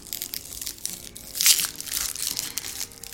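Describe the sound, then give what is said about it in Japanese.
Crinkling and crushing of a chocolate wrapper as a Lindt chocolate is unwrapped to be eaten, a steady run of crackly rustles with one louder, sharper burst near the middle. “チョコレートを食べます”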